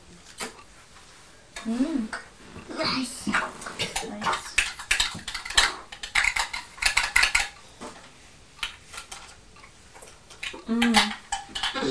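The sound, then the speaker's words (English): A spoon clinking and scraping against dishes, with many light metallic clatters coming in irregular bursts separated by quieter gaps. “What's that? A spoon.”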